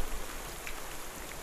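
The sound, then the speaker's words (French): Heavy rain falling outdoors in humid weather, a dense and even hiss of countless drops, faint and steady with no voices. “l'humidité, la pluie devient trop intense.”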